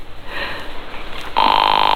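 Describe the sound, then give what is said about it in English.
A telephone rings, a steady, rapidly trilling electronic ring that starts partway through after a soft breathy hiss and continues to the end. “come on, Bill, pick up your phone”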